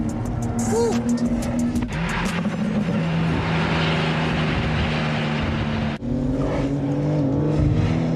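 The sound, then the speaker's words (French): Sports car accelerating hard through its gears, with small backfire pops at the gear changes: a loud, rising engine drone broken by sharp cracks at the shifts, with voices briefly over it. “Ouais, et puis cette petite déflagration là au passage de vitesse.”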